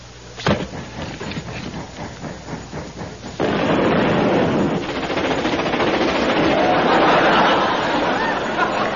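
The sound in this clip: Special strong coal thrown on a fire explodes. A sharp bang is followed by rattling bursts, then a sustained loud roar with dense crackling that keeps going to the end.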